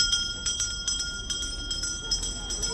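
A bell rung to end recess at a school for refugee children in Jordan, rapid repeated clanging strikes over sustained bright, ringing tones.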